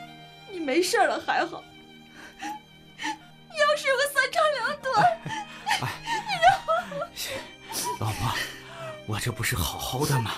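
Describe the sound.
A woman crying: sobbing wails, whimpers and choked, gasping breaths come in uneven bursts with short pauses between. The crying is fairly loud, with no clear speech.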